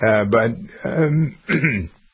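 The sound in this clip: A person clears their throat in three rough, voiced bursts in quick succession, fairly loud and with no other sound around them.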